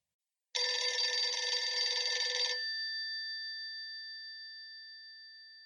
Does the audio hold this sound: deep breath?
no